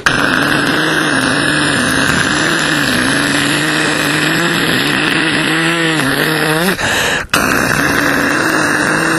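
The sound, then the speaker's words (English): A voice imitates rocket motors firing at liftoff: a loud, sustained buzzing roar with a wavering pitch, breaking off briefly near the end before resuming. “And all of a sudden the motors kick in and they start going like this.”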